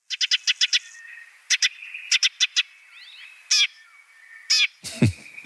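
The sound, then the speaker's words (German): Eurasian tree sparrow calling: many short, bright chirps come in quick clusters, a fast run of about six, then pairs and groups of four, followed by a few longer, harsher calls, alone with no voices. “Ich würde sagen, damit hören wir auch mal in den Feldsperling, in seinen kleinen Bruder rein.”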